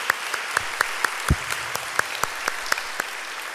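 Rhythmic clapping from a church audience, with many sharp claps landing on a steady, even beat that holds throughout and one low thump partway through.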